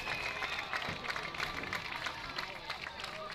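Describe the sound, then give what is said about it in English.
Baseball fans in a packed stadium in Rockwall cheer their team with a continuous crowd roar, scattered sharp claps and mixed voices, fairly even in level throughout. “Listen to these Rabbits fans right out here. It is packed house, and they are cheering these Rabbits on.”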